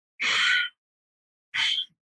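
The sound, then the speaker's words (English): Two audible breaths are drawn in through the nose, rasping at the back of the throat. A longer hissing inhale comes first, then a shorter one after a pause, with no talk around them. “when you breathe in through your nose, everybody listen, it's going to sound like this.”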